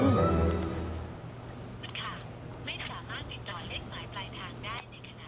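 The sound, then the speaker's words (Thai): A telephone rings with a repeated pattern of bright, warbling electronic tones. The rings sit under a steady low hum, and a voice speaks at the start. “จะโทรทำไมนักหนาฉันมาแล้ว”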